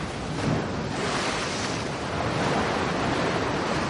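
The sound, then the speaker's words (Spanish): Heavy sea waves crash hard against rocks near the shore, making a dense, continuous roar of churning surf with a broad hiss that stays loud throughout, with no voices. “El mar azota con fuerza las rocas cerca de la orilla.”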